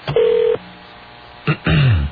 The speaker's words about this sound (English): See, angrily punching the phone numbers over there?